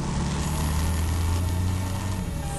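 A car engine hums under steady road noise as the car is driven in a radio drama. The rumble is continuous and even throughout, and no one speaks.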